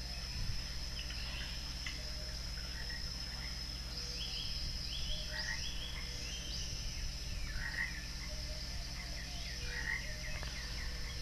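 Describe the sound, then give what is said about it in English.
Frog croaking in a dense, steady chorus of short repeated calls that carry on throughout, set over a constant low hum. “Do what that frog says.”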